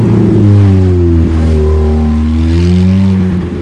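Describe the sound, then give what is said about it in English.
A convertible Ferrari's engine drones loudly and continuously as the car climbs the winding ramps of a parking structure toward an open rooftop, its harmonic engine note dipping and swelling as it takes the turns. “Sonny's Ferrari drives up the winding ramps of a parking structure to the open rooftop.”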